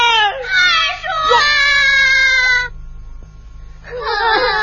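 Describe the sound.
A child cries in a Quju opera scene: loud, wailing, sobbing phrases with a wavering, high voice. The crying breaks off briefly, then starts again.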